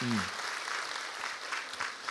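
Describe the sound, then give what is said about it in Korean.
A crowd claps steadily at a church children's-ministry gathering, a dense, even patter of many hands that holds at a constant level. A brief voice is heard at the very start. “이 자리에 너무 어려서 못 올라왔지만 우리 사랑부, 영아부, 유치부를 위해서도 박수하겠습니다.”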